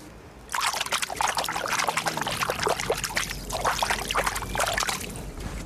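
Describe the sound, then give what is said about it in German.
Water at the shore of the Krenteich pond in Lübeck: a steady trickling, splashing wash that starts after a brief quieter moment and continues unbroken. “Ich will den auch noch einmal hören. Ich nehme euch jetzt mal schnell mit ans Ufer.”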